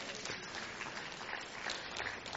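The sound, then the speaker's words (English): A church audience claps, producing steady, dense applause that holds at an even level throughout. “Come on, give Jesus a big hand clap.”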